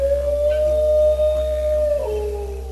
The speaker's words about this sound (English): From the squeaks and grunts of the koala to the barks and howls of the dingo.